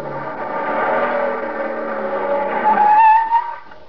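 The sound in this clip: A car speeding at about 65 miles an hour, then skidding to a stop. A steady engine roar builds into a loud, squealing tire tone near the end, then drops away quickly. No voices are heard.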